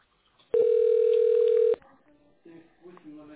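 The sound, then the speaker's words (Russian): A steady telephone line tone sounds loud and even for just over a second while a call to a bank is connected to an operator, followed by faint, low, quieter sounds. “Секунду. Соединяю с оператором.”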